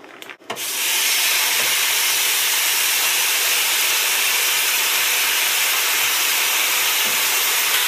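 Steaks sizzle on a preheated cooking surface. A brief clatter opens, then a loud, steady hiss runs unbroken for about seven seconds.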